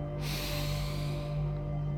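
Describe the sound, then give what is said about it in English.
A deep breath drawn in through the nose during a guided relaxation exercise: one long, soft, airy inhale lasting about a second and a half over a low steady hum. “If it's safe and appropriate to do so, take a deep breath in.”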